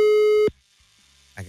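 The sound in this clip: Ringing tone of a telephone call placed live from a radio station: a single steady electronic tone lasts about half a second and cuts off into near silence, then a voice starts just at the end.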